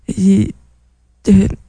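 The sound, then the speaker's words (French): A woman chokes and clears her throat in two short, rasping, voiced bursts separated by a brief silence, both fairly loud. “excusez-moi, je me suis étouffée dans ma gorge.”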